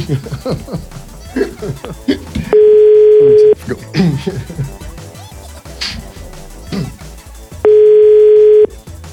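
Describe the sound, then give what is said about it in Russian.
A telephone tone sounds while a call is being placed: two steady, mid-pitched one-second tones about five seconds apart. Between the tones, people talk and chuckle. “Ну, звоню.”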